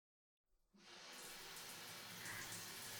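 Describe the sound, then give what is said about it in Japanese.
Water rinsing shampoo out of hair: after a brief silence, warm running water starts up as a soft, broad hiss that continues evenly to the end, with no voices. “はい、それでは洗い流していきますね。”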